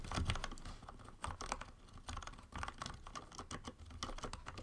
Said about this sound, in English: The keyboard has really good what's the mechanical keyboard nerds call thock rather than a click. Yeah. So, do you guys mind if I just like type into the microphone for a second?